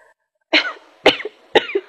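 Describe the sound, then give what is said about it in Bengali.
Three dry, tickly coughs from a person who has had a cough with a mild fever for several days. Each cough is loud, short and harsh, spaced about half a second apart, with no talking. “আপনার বেশ কাশি হয়েছে দেখছি।”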